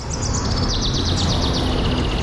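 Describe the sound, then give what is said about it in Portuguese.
A small bird chirping: a rapid run of quick, high, bright chirps repeating steadily, with a constant noisy background underneath. “olha um passarinho”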